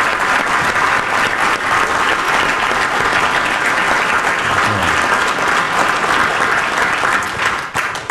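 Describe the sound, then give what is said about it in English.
Audience applause for a speaker at a live event: a loud, dense, steady wash of clapping that holds evenly throughout and thins slightly near the end. “Can we give it up for Robert Lewis Brandon Edwards one time?”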